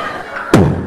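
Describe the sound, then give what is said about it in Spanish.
A bomb explosion sound effect from a 3D show: one sudden loud blast that tails off in a short, low rumbling decay. “En otras partes del mundo, como Afganistán, suena una bomba. No te asustes, mami, esto es un show en 3D.”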